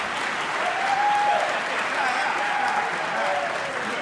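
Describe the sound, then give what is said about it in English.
Audience applause at a debate as the debaters are introduced: thick, continuous clapping at an even level, swelling slightly near the start and then holding steady to the end. “That was one of those applause lines.”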